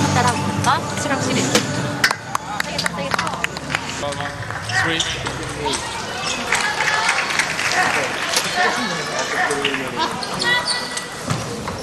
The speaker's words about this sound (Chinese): 发球擦网了吧？ 擦网重发。